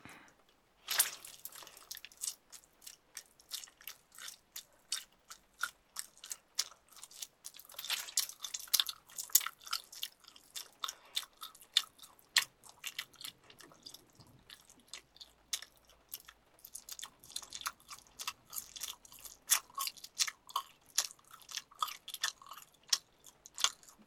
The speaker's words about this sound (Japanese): ゆっくり食べるね。